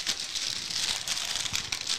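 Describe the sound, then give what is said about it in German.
Crinkling of a silver, non-transparent plastic pouch as it is pulled out of a package: a continuous, fairly quiet rustle with small crackles that lasts about two seconds, with no voices. “Einen silbernen Plastikbeutel, den wir rausziehen können.”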